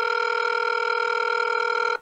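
A steady electronic telephone tone holds unbroken for about two seconds while a call is dialled out to a guest, then cuts off abruptly at the end.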